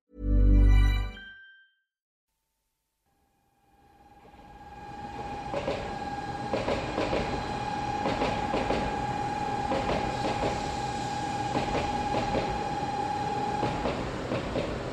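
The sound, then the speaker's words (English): A Shinkansen bullet train pulls into Tokyo Station, bound for Kyoto: a steady rushing rumble rises out of silence and holds, with a sustained high whine and faint rhythmic clicks running through it. “Well, that's the sound of the bullet train, or Shinkansen, as it pulls into Tokyo Station here, bound for Kyoto.”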